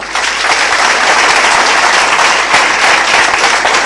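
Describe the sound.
Women attending a group meeting clap together after a report is read. The applause is loud, dense and continuous, with many overlapping hand claps at a steady level for nearly four seconds.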